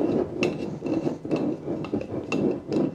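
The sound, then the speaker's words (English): A 1/4 cup measuring spoon packs flour down in a jar for a cookie mix: several soft scraping, pressing strokes in an uneven rhythm, faint and gritty, with no talk. “And I'm gonna take my 1/4 cup measuring spoon and pack my flour down.”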